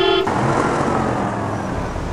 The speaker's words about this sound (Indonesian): Kayaknya ada angkot tuh.